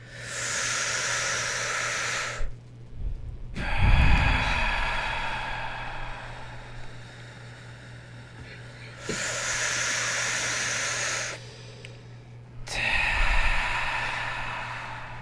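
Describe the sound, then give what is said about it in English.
Deep breaths in and out during a guided relaxation exercise, heard as long, airy, hissing breath sounds separated by brief pauses. A low steady hum runs underneath, and no one speaks. “And so we're going to do 3 deep breaths on 3, 2, 1.”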